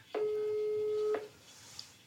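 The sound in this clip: A telephone call being placed rings out: one long, steady, mid-pitched ring tone of about a second stops cleanly and leaves a faint line hum.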